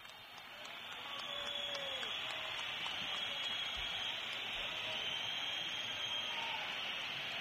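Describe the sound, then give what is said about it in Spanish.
A stadium crowd whistles in protest at the end of a football match, making a dense, steady high-pitched hiss of many whistles that swells slightly after the first second and then holds level, fairly faint. “Fuerte pitada, no, fuerte pitada. Está claro, sí, sí. Los que han aguantado ha sido para mostrar su desacuerdo con el partido que han visto”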